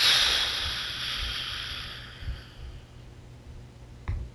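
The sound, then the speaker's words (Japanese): A slow breath let out through the mouth: a soft, airy hiss that is loudest at the start and gradually fades over about two seconds, followed by near quiet with a couple of faint low thumps. “鼻からゆっくり空気を吸ってください。では口からゆっくりと吐き出す。”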